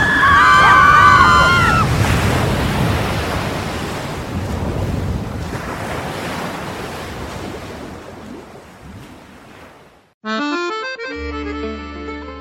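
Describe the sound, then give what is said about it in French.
Ocean waves surge and wash around a boat on a choppy sea, a loud, windy rush that gradually fades. A brief warbling tone sounds at the start, and a short musical phrase cuts in near the end. “Le bateau coule. C'est une catastrophe. Calmez-vous. Ce n'est qu'une petite vague.”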